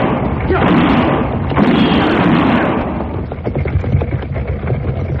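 Gunshots and an explosion in a western gunfight: a loud, dense rumbling blast fills the first seconds, then a rapid series of sharp cracks.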